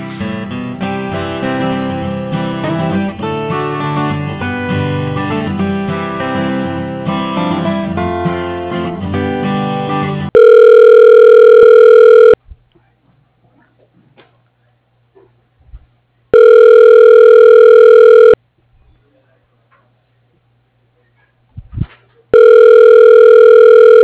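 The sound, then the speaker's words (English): Hold music gives way to a telephone ringing while a call is transferred: three long, steady, loud ring tones, each separated by several seconds of near silence. “I can transfer you back to his phone.”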